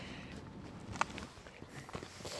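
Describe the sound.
Footsteps of people walking along a street make faint, irregular taps over a steady outdoor hiss.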